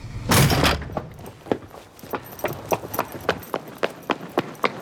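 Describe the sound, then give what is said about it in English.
A woman bursts out through a tower block's main doors with a sudden loud rush of noise, then her quick, even footsteps sprint down the road in a rapid steady rhythm that continues to the end. “Bursting out of the tower block's main doors, she sprints down the road.”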